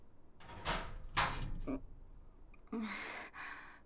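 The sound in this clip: A door being opened, heard as a few soft swishing and clacking bursts, faint and separated by brief quiet gaps.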